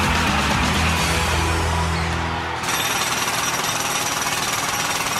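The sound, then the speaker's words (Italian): A pneumatic jackhammer rated at 100 decibels pounds away in a continuous, rapid, loud rattle with no pauses. Its tone shifts partway through while the hammering stays steady. “Martello pneumatico 100 decibel.”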